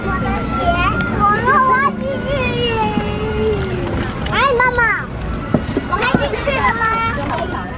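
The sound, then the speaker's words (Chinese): Children play in a residential garden playground sandpit, their high voices chattering, calling and squealing over one another in a continuous lively babble. “走进荣兴花园的儿童游乐区，一群孩子们正在沙坑上堆城堡。”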